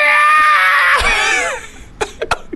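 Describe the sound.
A voice imitates a hospital patient's scream of pain from an injured arm: a loud, strained, high wail lasting about a second and a half that breaks and fades, then a few short breathy bursts.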